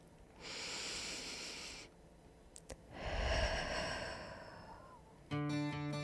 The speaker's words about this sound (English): Let's take a deep breath. And one more.